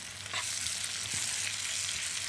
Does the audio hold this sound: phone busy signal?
no